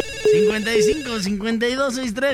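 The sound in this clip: Telephone ringing for an incoming call: a couple of short, steady mid-pitched ring tones under a man talking continuously.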